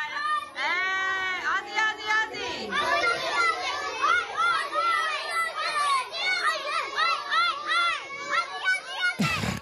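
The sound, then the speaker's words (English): Excited kindergarten children at a Sydney primary school chant and cheer for Australia's national soccer team, a loud, shrill, continuous crowd of young voices with rhythmic rises and falls that cuts off abruptly at the end. “That's the sound of a group of very excited kindergartners from Roselle Public School in Sydney”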